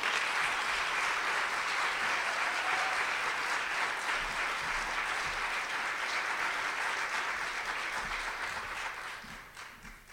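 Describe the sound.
Audience applause welcoming a speaker to the stage at a workshop event, dense and sustained clapping from many hands that holds steady for several seconds before fading toward the end.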